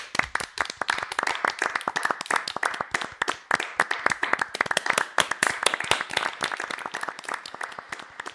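Hand clapping marks the start of a home-office recording, with many sharp, irregular claps in quick succession. It holds a fairly even loudness throughout, and no one speaks.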